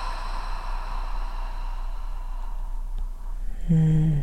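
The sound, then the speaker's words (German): A deep exhale through the mouth, a long breathy rush of air that slowly fades over a few seconds, followed near the end by a soft, low hummed tone. “Und atme ganz tief durch die Nase ein. Und lass alles durch den Mund einmal los.”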